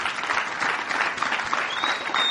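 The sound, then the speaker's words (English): Congregation applause honoring the mothers and grandmothers standing at a church service, a dense, continuous patter of many hands clapping at an even loudness throughout. “Go ahead, let's give them a clap today.”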